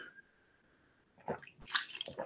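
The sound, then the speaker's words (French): Sipping and swallowing sounds as someone drinks water: a few soft, wet bursts follow a quiet opening with a faint steady tone. “Alors je vais boire un peu.”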